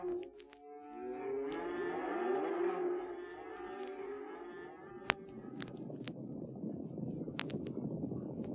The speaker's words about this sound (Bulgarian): Разделете стадото на две. Задръжте на едно място биволиците с малачетата, а биволите откъснете отделно.